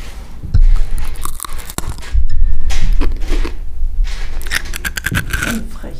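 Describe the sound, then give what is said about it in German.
A sharp crack as teeth bite into a crisp, Q-shaped letter snack. Several loud crunching chews and gritty scrapes follow, close and busy, over about six seconds. “Aus dem D könnte man ein U knabbern. Ja, oder aus dem Q. Ich habe hier noch ein Q. Warte, ich beiße da mal kurz rein.”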